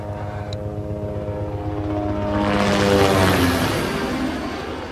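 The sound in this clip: Helicopter engine drone from police helicopters searching for migrants sheltering in a church: a steady, low, tonal rotor-and-engine hum that swells louder through the middle, adding a broad rushing wash, then eases slightly toward the end.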